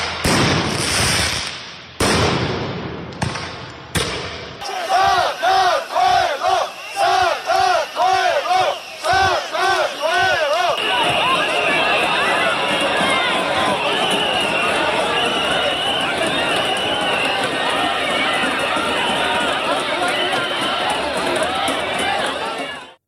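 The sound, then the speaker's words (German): Street protest in Tbilisi, Georgia: several sharp bangs open, then a crowd chants in rhythmic, pitched unison, giving way to a dense, loud roar of shrill whistles and shouting that continues to the end. “Protestrufe, Trillerpfeifen, Gummigeschosse und Tränengas. Was man hier hört, sind die Proteste auf den Straßen der georgischen Hauptstadt Tbilisi,”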